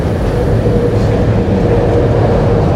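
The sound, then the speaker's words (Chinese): A train passes overhead, heard from beneath railway tracks in Tokyo: a loud, continuous low rumble and steady roar, unbroken for the whole span. “现在是铁轨之下的声音，”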